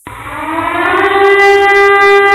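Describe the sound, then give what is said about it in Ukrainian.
A civil defense air raid siren wails loudly and alone, its tone climbing slightly at the start and then holding steady as one sustained, harmonic-rich howl. “Увага! Повітряна тривога! Усім пройти до найближчого укриття!”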